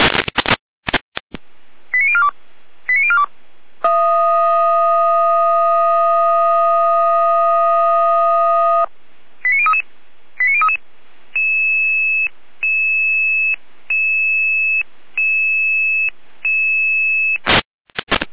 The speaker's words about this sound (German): Jeder mit Alarmruf.